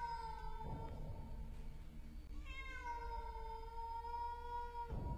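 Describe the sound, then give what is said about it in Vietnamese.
A cat meowing mournfully in the night: two long, drawn-out wailing meows, the second longer than the first, faint but clear over a low background. “Sau đó là tiếng mèo kêu vang lên trong màn đêm, nghe não lòng.”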